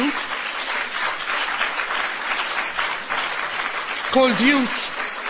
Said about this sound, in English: A special applause to Tony for creating this project